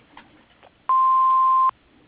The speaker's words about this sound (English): Hello, you have reached Dakota Machine Works. We cannot come to the phone right now. Please leave a message after the tone and leave your phone number, and we shall get back to you.